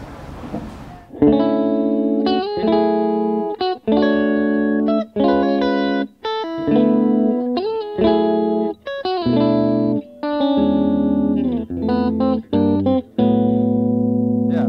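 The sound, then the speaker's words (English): Electric guitar played with a clean tone through an amp, strumming a riff of rich jazz chord voicings. Each chord rings out sustained before the next change, with no voices. “do you mind just playing just your clean tone through the amp so we can hear what that's like? So, here, let me think of a cool riff real quick.”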